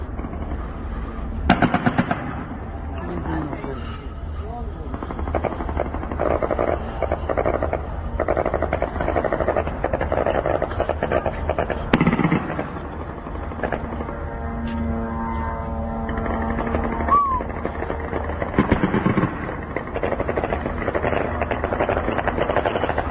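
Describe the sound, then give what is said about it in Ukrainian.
Shahed drone attack on southern Ukrainian ports, filmed by residents in Romania: a constant rough engine-like drone and hiss, broken by a few sharp bursts, with a droning tone that becomes more distinct in the later part. “видео, которое сегодня вот снимали, я так понимаю, жители Румынии, румыны, атаки очередной, уже ставшей привычной, на южные порты Украины шахедами”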